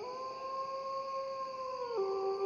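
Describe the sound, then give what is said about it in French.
Wolves howl outside at night: one long, sustained, tonal howl holds a steady pitch, then drops abruptly near the end, with no voices present. “Dehors, des loups commencent à hurler.”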